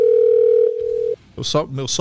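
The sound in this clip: A telephone dial tone sounds on an incoming call: one steady, unwavering pitch for about a second. It cuts off, and after a short silence a voice starts speaking.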